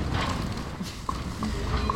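Horse hooves clip-clopping while riding, a few light, evenly spaced hoof knocks over a steady background rumble.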